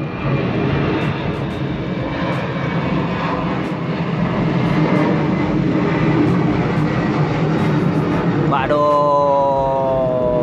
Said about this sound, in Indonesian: Ya gitulah, ada pesawat lewat. Suaranya mengganggu.